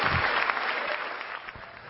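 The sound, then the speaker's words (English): Applause in Congress for Zelensky: dense, continuous clapping from a large audience that holds steady and eases off slightly toward the end. “As you might expect, rather, from Congress there. Although what Zelensky needs is not applause.”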